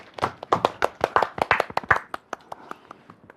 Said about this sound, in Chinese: 接下来我们掌声有请小哥哥。